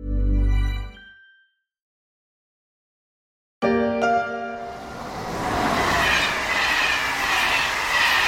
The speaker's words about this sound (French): Fête ses 40 ans, le TGV, il a rapetissé le territoire français